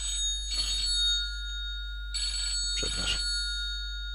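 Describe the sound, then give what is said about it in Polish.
A telephone rings with a few short bursts of bright electronic trilling separated by pauses. A faint steady tone hums underneath and no voices are heard. “przepraszam Państwa, ale musiałem odebrać telefon.”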